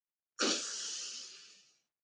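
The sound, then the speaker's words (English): A single nasal inhale during an alternate-nostril breathing exercise, taken as a pinched nostril is released: an airy hiss that starts abruptly, then slowly fades away over more than a second, alone and fairly soft. “Hand comes up, pinching the nostrils gently and releasing and inhaling.”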